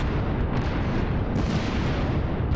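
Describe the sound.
Explosive blast of an orb detonating in a Pokémon video game boss battle, a loud, continuous booming roar with a dense low rumble that holds steady throughout.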